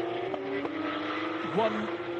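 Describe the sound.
Engines of racing cars battling closely on track in a Carrera Cup Asia field race: a steady buzzing drone with a brief dip and rise in pitch midway, heard under a commentator's voice.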